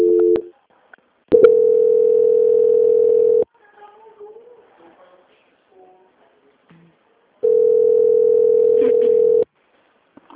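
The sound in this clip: A steady mid-pitched telephone tone plays while a bank call is transferred to a quality-control department. It sounds briefly at the start, then in two long bursts of about two seconds each, with near silence between them.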